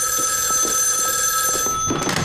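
A telephone ringing, its steady bright electronic tone sounding continuously and loudly on its own, with no voices.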